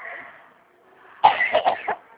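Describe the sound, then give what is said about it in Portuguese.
A woman with an allergy coughs in a short cluster of a few harsh, hacking bursts that follow one another quickly, after a stretch of near silence. “eu espero, tossi.”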